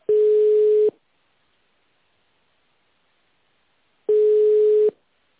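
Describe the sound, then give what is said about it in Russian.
Telephone ringback tone as a call connects: two steady, mid-pitched beeps of about a second each, separated by roughly three seconds of silence. “Соединение установлено. Пожалуйста, подождите.”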